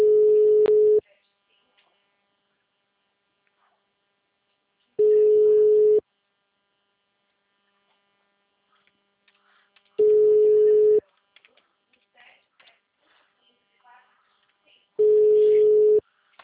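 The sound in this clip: Ringing tone of an outgoing telephone call: four steady, mid-pitched tone bursts of about one second each, separated by long gaps that hold only faint, scattered noises.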